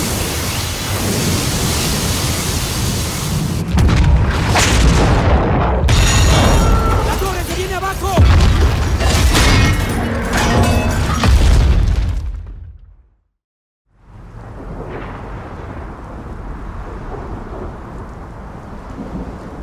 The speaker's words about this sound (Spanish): El muro tormenta ha pasado